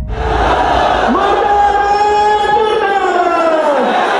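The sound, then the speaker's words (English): An angry mob in Pakistan shouts in unison, many voices forming a loud, sustained roar of raised, drawn-out cries that holds steady for about four seconds. “This is the sound of an angry mob in Pakistan.”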